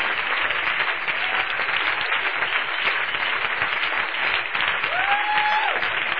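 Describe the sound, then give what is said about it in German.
A church audience gives sustained applause during a worship service. Dense clapping stays at a steady, even loudness throughout, with no clear break. “Lass uns mal aufstehen und Jesus einen riesen Applaus geben.”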